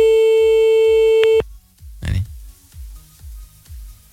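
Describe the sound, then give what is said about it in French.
A telephone tone sounds as a number is called back: a steady electronic tone holds for about a second and a half, then cuts off abruptly, and quieter sounds follow. “Bon, on va la rappeler quand même. Oui, bon, on va la rappeler un petit coup.”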